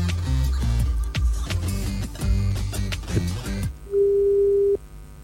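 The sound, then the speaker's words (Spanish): Telephone line tone heard while a call is being dialed. A single steady, mid-pitched tone lasting under a second follows a stretch of music, then cuts off into near silence. “Vamos a llamar a otra persona más. No tiene que salir sí o sí. Si esa es la idea. Estamos marcando. Estamos marcando.”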